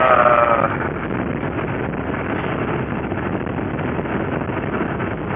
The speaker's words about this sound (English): look at all that background noise. We're in the car.